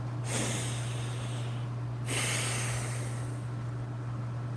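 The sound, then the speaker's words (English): Deep breathing, one slow inhale and one slow exhale, each a long, airy, hissing rush of air. A steady low hum runs beneath both breaths. “You could take a nice deep breath. Inhale and exhale.”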